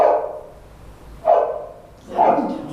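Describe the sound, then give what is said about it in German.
Three barks from a dog, evenly spaced and mid-pitched, each a short rough burst that tails off, played as a sound-guessing puzzle. “Das ist ein Hund.”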